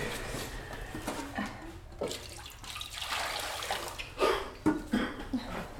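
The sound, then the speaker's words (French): Water poured onto a cloth, heard as a faint, uneven trickle and splash with a few louder splashy bursts toward the end. No talk over it. “Prends un linge et je te mets un peu d'eau.”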